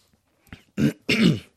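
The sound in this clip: Throat clearing and coughing from someone still recovering from a two-week cough: two short, rough, loud bursts heard alone, with a faint catch just before them.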